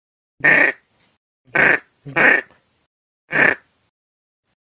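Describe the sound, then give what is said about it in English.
A mallard duck call imitates a diver duck's grunt: four short, raspy, guttural bursts with pauses between them, and a fifth just starting at the end. “what a diver sounds like, is just a grunt. It sounds like this.”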